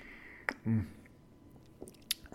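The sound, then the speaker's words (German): A short, quiet sip of freshly made hot espresso brewed from home-ground beans: a small click, then a soft slurp and swallow, followed by a few faint clicks. “Aber heute mit einem schönen heißen Espresso. Ich habe mir gerade frisch gemacht, selbst die Bohnen dafür gemahlen und deswegen trinke ich mal einen schönen Schluck.”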